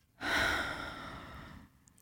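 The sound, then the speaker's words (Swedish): A single long, deep breath taken during a guided breathing exercise, drawn in through the nose and let out through the mouth. It is a steady airy rush lasting about a second and a half, with no talking over it. “Att du andas in genom näsan. Och så kan du släppa ut genom munnen.”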